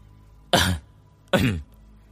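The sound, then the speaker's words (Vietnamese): Someone clears their throat twice, two loud, rough, rasping bursts less than a second apart, alone with no other sounds. “Tôn Mập hắng giọng nói với Hách Chính Nghĩa”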